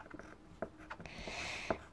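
Scratchy strokes of a coloured pen rather than a pencil on paper while a child letters a word, faint and dry, with a few sharper ticks among the short, uneven scrapes.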